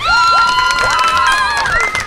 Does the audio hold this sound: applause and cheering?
yes